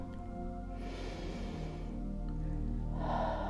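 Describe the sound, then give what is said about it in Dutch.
A deep inhaled breath, a soft airy rush of about a second, rises over a steady, low droning music bed. “Adem maar in, zegt Maria Magdalena. Adem deze energie maar heel diep in.”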